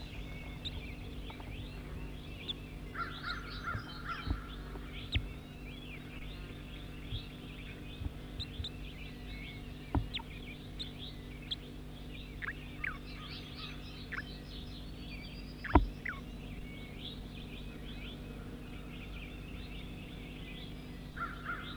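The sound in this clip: Bird calls ring out throughout: many short chirps and crow-like caws repeat over a steady low hum, with one louder call standing out near the end.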